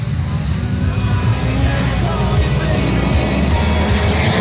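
Race cars driving laps on a short track: loud, continuous, rumbling engine and road roar that holds steady without a clear break.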